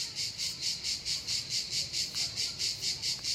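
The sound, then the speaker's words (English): Cicadas chirping in the south of France, a high, steady buzzing that pulses in an even, rapid rhythm throughout, with no voices over it. “is that cicadas in the background? Yes. Listen.”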